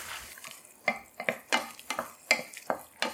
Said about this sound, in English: Put the garlic in there. Give that a stir.